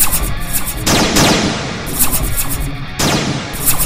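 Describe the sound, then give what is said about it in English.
Energy blasts firing in a fight, a dense, loud, continuous roar of crackling bursts, with two sharp blasts standing out about two seconds apart. “I've got these force fields. And these energy blasts. I too have force fields. It is on.”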